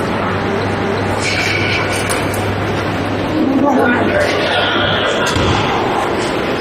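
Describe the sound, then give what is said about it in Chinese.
Busy ambience of the entrance hall at Beijing North railway station: a constant noisy wash of crowd murmur and movement with occasional thumps, while people talk. “我现在是在北京北站的进站口”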